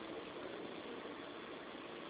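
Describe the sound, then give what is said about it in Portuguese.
Inside a moving train, heard over a phone call: a steady, muffled low rumble of vehicle noise holds at an even, faint level with no voices. “aqui a ligação está dentro do trem, pode falar”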